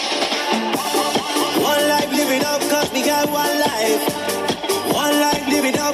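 Official song of the 21st football World Cup plays: a loud, dense, upbeat pop track with a steady driving beat and layered instruments throughout.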